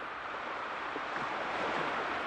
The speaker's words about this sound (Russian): Это ветер с моря гуляет здесь.